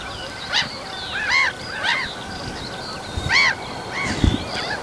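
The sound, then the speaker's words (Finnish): Black-headed gulls calling as they fly over the microphones on a morning in Lohja, Finland: several harsh, nasal cries come one by one at an uneven pace above a steady background hiss. “Naurulokit on siinä mikkien päällä. Siitä lentää yli.”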